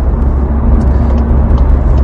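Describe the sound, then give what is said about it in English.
An estate car cruising on a motorway, giving steady road and engine noise: a loud, constant low rumble with broad hiss and no change in pitch. “So when you're cruising along on the motorway, as I am now, tracks absolutely perfectly. You feel little bits and bumps through the road, but generally all normal.”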